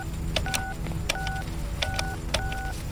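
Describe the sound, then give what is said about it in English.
Payphone keypad dialing tones from a gravel parking lot: four separate short dual-tone beeps, spaced at uneven intervals, over a steady hiss of background noise. “He lifted the receiver and dialed the number,”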